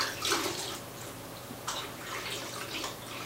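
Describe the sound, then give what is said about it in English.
Water pouring into a film developing tank while processing a roll of Ilford 120 black-and-white film, a steady, fairly faint rushing hiss with slight surges and no talk. “this is just water. There we go. So that's the tank full.”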